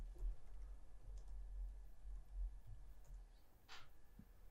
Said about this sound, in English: Do type in Darren Brown, D-A-R-R-E-N Brown.